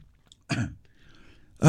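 A person clears their throat after eating, with two short, rough bursts separated by a brief pause.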